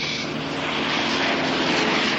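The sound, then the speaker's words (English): A light propeller plane drones in flight, its engine and airscrew giving a steady, even roar with no breaks and no voices. “Never been in a light plane before. We won't be in the air long.”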